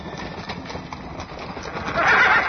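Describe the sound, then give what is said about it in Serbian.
Restless, frightened horses stamp and shuffle with an uneven clip-clop of hooves, then one lets out a loud, drawn-out neigh that dominates the final moments. “a i konji su nešto uznemireni, kao da se plaše, vidite i sami.”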